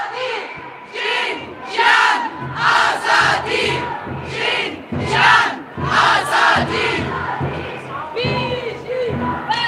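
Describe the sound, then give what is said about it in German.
A crowd chants slogans at a feminist demonstration, loud rhythmic bursts of many shouting voices rising and falling in regular waves. “Ja, ihr gehört, verschiedenste Parolen werden da skandiert an der heutigen feministischen Demonstration.”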